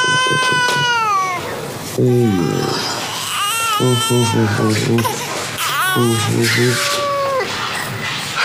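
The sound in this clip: An infant cries in repeated wailing bursts, loud and tonal, with adult voices talking around the cries.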